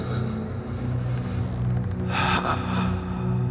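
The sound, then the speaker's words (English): A dying man's final heaving breath in a dramatized Good Friday scene: one brief, harsh gasp that rises out of a steady low drone, with no voices. “Your chest heaves as you breathe your last.”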